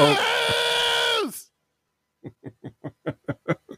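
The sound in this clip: A voice imitates a news theme song with a harsh, sustained droning note that cuts off, followed after a pause by a quick series of short, rhythmic vocal bursts.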